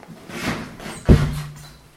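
A door opening to let a dog in: a soft rustling swish, then one heavy thud near the middle that fades away.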